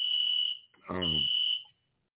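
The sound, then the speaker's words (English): A house fire alarm goes off with a shrill, steady high-pitched tone. The tone drops out briefly while a voice cuts in, then resumes before stopping abruptly. “fire alarm going off in the crib. It's always fire alarm going off in the crib. I don't know if y'all can hear it, but I'm recording out of my house.”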